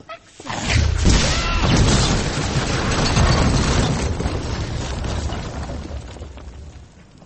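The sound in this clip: Explosion from a magical blasting spell: a sudden, loud, broad burst that swells into a heavy rumbling roar, holds for several seconds, then slowly fades.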